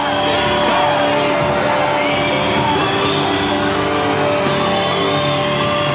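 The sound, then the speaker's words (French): Loud crowd cheering, whooping and yelling from an audience outside a concert in tropical rain, a dense, continuous wash of many voices that holds steady across the whole stretch. “Dehors, le public donne de la voix.”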